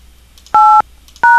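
Two telephone keypad DTMF tones sound while a credit card number is being entered. Each is a steady, loud electronic beep lasting about a quarter second, with a short pause between them.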